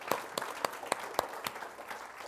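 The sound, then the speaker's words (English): A church audience applauding, a soft wash of clapping marked by a steady beat of sharper, evenly spaced claps. “Yeah, let's give the Lord a hand on that.”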